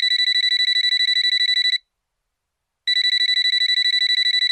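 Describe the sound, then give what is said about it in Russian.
An electronic telephone ringing: two long bursts of rapid, high-pitched trilling separated by a short silence, steady in loudness and heard alone. “Когда Далила, усталая и расстроенная, поднялась в свою квартиру, ей позвонила Елизавета.”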